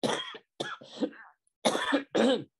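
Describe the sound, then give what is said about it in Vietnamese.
A speaker giving a Buddhist teaching coughs several times in a row, with harsh, throaty bursts separated by short pauses. The later coughs are the loudest. “Xin lỗi, bữa nay cũng còn ho.”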